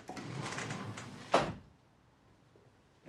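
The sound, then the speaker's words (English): A sliding door opening at night into a suburban house: a soft rolling rush that ends in one dull thump, followed by near silence. “enters through a sliding door”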